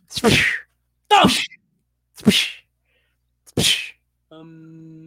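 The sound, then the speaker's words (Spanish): A whip lashes a man's back in a radio drama: four sharp, loud cracks about a second apart, each with a short tail, followed by a brief, faint, steady low tone. “Una y otra vez el látigo se estrella en su espalda sin que surja una queja ni haya expresión de dolor.”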